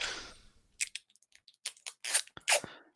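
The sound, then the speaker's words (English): Adhesive tape is pulled and torn to mend a pair of headphones. Several sharp ripping and crinkling bursts are separated by brief pauses, with the loudest strips near the end. “I'm taping my headphones back together.”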